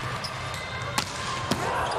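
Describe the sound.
A volleyball serve is struck in a Japan versus Croatia match. Two sharp ball hits about half a second apart stand out over a low background hum of voices.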